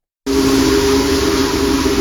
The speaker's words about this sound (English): Union Pacific Big Boy Steam Locomotive 4014 draws a crowd wherever it goes, thanks to its sheer size.